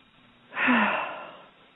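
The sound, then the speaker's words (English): One deep breath during a guided eyes-closed relaxation exercise: a soft, airy rush that swells quickly, holds, then slowly fades, alone over faint background hiss. “Okay, so close your eyes. Everybody take a deep breath.”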